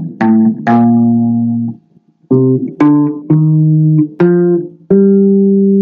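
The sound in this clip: Seven plucked guitar notes of a Dorian scale ring out one after another across the strings, each sustaining and decaying before the next, with a longer gap after the second note.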